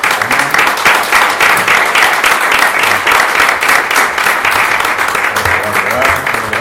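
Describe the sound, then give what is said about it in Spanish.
Audience applause at the opening of a flamenco studies exhibition: many hands clapping in a dense, sustained roar that stays loud and steady for the whole stretch. “quiero pedirles a todos que les demos un aplauso a ellos.”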